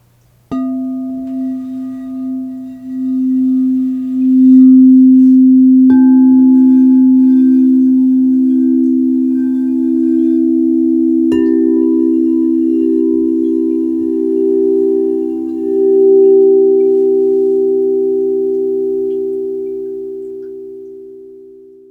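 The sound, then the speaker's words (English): Sound healing tones form a C major triad: sustained, pure, steady pitches enter one after another until three notes ring together in a smooth, loud chord, then fade gently at the end. “This sound healing triad creates the key of C major.”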